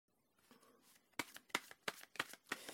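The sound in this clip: Tarot cards being shuffled: a soft rustle gives way to a run of crisp, snapping card flicks in quick, uneven rhythm, all faint.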